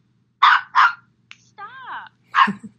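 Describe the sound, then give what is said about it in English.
A dog barks during an interview. Two sharp barks come in quick succession, then a short tonal sound, then a third bark. “I think my dog wants to be on the interview.”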